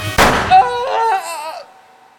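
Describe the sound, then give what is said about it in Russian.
A single sharp, loud pistol shot, fired at point-blank range, bursts out near the start and then fades away to silence. “Подошел он, достал из кармана пистолет, тот самый. Прижал его Иван Ивановичу к зубам и выстрелил.”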